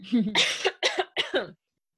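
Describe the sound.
Throat clearing followed by a few harsh coughs from a person with a tickle in the throat. The coughs are short, loud, rasping bursts in quick succession, heard alone.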